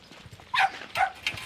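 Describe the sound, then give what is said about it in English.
A Jack Russell terrier gives three short, sharp barks in quick succession, fairly faint and rising out of a low outdoor background. “Now, your dog is following us. It's actually my son's dog. I think he knows there's something going on, so he just likes to be involved. He's a Jack Russell.”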